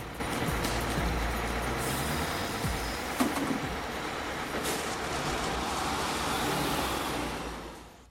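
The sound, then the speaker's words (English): A Downtown Express city bus pulls up at a stop: a low, steady engine rumble with a couple of brief hissing bursts partway through, then a gradual fade. “A 95 bus, the Downtown Express, pulls up. Ray, still clutching the cat, climbs on.”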